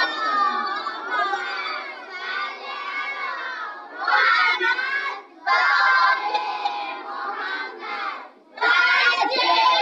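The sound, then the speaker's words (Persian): A crowd recites salawat in unison in remembrance of the martyrs of the revolution, of 19 Dey, of Qom and of the police. Loud chanted phrases from many voices are separated by a few short breaks. “شهدای انقلاب، شهدای 19 دی، شهدای شهر قم و شهیدان نیروی انتظامی، همه کسانی که گردن ما حق داشتن از دنیا رفتن، واسه یه صلواتی بیارید.”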